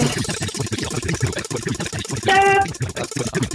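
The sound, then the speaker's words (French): Prize wheel spinning on a radio quiz, a dense, continuous clatter of rapid ticks at an even pace, fairly loud throughout, with a brief bright chime-like tone partway through. “on lance la roue, tu dis stop quand tu veux.”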